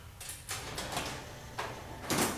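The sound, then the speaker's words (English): A door opening: a run of short scraping, sliding bursts at moderate loudness, the last one strongest, with no voices. “Door open.”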